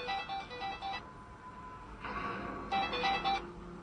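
A phone ringtone: bursts of electronic ringing tones separated by a pause of about a second, sounding over a steady background noise.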